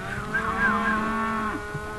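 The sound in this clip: Black cows in a pasture give a long, low, drawn-out moo with no talk over it.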